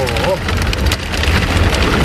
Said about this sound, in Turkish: Aniden bastıran sağanak yağış tüm hayatı felç etti.